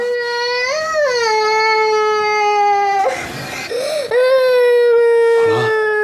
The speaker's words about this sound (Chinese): 哭了，嗯，孩子，乖孩子，爸抱你睡。